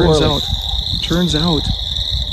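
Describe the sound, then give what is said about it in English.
Spring peepers, tiny frogs, call in woods in a continuous high-pitched peeping drone that runs steadily beneath a person talking. “That is the sound of spring peepers, which are little frogs, tiny little frogs.”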